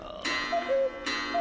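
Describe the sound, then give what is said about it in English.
A cuckoo clock sounds a soft two-note falling cuckoo call, then starts another, with louder mechanical bursts from the clockwork around the calls. “Okay, so that was the sound of a cuckoo clock.”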